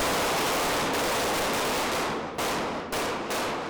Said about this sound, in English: He's pulling out a gun. 3 rounds, fire!